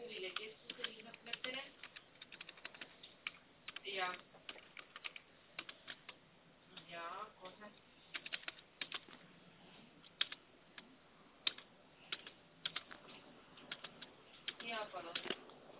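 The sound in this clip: Typing on a computer keyboard: many quick, light keystroke clicks in irregular bursts and pauses, faint throughout.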